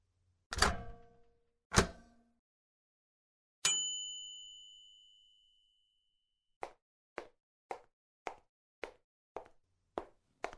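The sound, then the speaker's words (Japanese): A microwave oven heating snacks gives a single bright ding that rings and slowly fades. It comes after two dull thunks and is followed by a steady run of eight quiet, evenly spaced clicks. “おつまみをレンチンしないとだな。”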